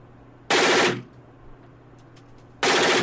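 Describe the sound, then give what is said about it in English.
Two bursts of automatic gunfire from an AK-47 rifle at a shooting range in the United States, each a loud, dense rattling volley under a second long, separated by a quieter gap of faint background noise. “He shot the AK-47.”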